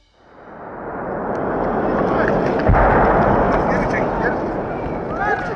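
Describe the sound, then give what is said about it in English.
Russian mortar shelling in Irpin, outside Kyiv, comes through as a heavy, sustained rumbling roar that swells in, with one sharp low boom partway through. “We start in the town of Irpin, just outside of Kyiv, where civilians have been filmed fleeing a Russian shelling attack. In an appalling video, a family of four walking towards safety were hit by what's believed to be a Russian mortar round.”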